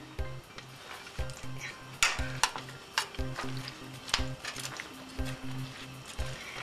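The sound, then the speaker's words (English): Peppers and mushrooms are stirred in a cooking pot, with many scraping and clinking strokes of the utensil against the pot over a steady sizzle of frying. “And my peppers. Give it a good stir.”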